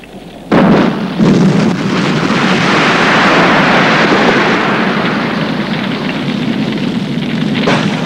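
An explosion of aircraft fuel tanks, set off when a flare pistol ignites wool tangled in the plane's tail, bursts in with a sharp onset and becomes a loud, sustained rumbling roar that carries on for several seconds.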